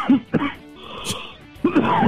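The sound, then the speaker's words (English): Throat clearing from a man with grease in his throat after eating a McRib sandwich: a few rough, gravelly bursts with pauses between them, the last one longer and louder. “man, that McRib is really doing a number on you. Ah, a lot of grease in my throat, sorry.”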